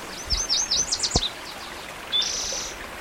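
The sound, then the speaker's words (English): A warbler sings a quick run of high, sweeping chirps, then after a pause a single longer buzzy trill, over faint background hiss. A single low thump falls between the phrases. “The warbler singing.”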